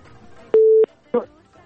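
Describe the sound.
A telephone busy tone sounds after a call disconnects. It is one loud, steady, mid-pitched beep followed by a second beep cut short, over a faint background.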